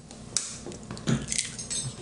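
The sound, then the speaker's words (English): Faint clinks and knocks as two cups of flour and three eggs, one blue and one brown, go into a bowl for pasta dough: a few light taps and soft rustles. “We'll start by putting in some flour. Actually, it's 2 cups. And then just 3 eggs.”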